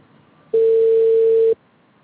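A telephone ringback tone sounds on a call that goes unanswered: a single steady, mid-pitched tone lasting about a second, heard alone between quiet stretches.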